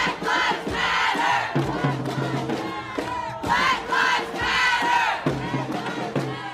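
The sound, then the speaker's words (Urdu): More than a thousand protesters chant slogans in St. Louis, Missouri, on a third straight night of demonstrations. The shouted phrases rise and fall in a repeating rhythm, loud and crowded throughout. “میزوری ریاست کے Saint Louis شہر میں اتوار کو لگاتار تیسری رات بھی مظاہرے جاری رہے، جس کے دوران 1,000 سے زیادہ مظاہرین نعرے بازی کرتے رہے۔”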